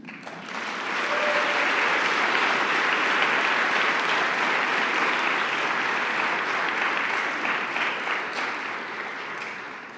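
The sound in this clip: Audience applause welcoming a speaker to the platform: steady, dense clapping that swells in quickly, holds evenly for several seconds and tapers off at the end, with no voices over it.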